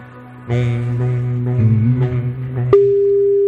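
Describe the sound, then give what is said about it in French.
Telephone ringing on an outgoing call to a line near Lens, France: a steady, single-pitch tone that starts abruptly near the end and holds loud and unbroken. “Ça sonne à côté de Lens.”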